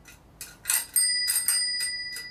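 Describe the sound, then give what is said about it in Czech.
A bicycle bell under repair, just lubricated with silicone oil, rings in several quick, bright metallic dings. The first strikes are weak and thin, and the later ones are fuller, with lingering tones. No one speaks. “začneme tím zvonečkem, si ho rozezníme, trošku promažeme silikonovým olejem. zkusíme ho rozpohybovat”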